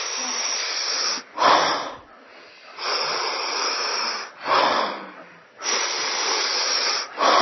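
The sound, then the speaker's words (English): Breathing demonstration of stacked inhales, one drawn on top of the other: a few long, airy, hissing breaths separated by brief pauses. “Let's focus on some basic techniques. One inhale on top of the other. So it sounds like this.”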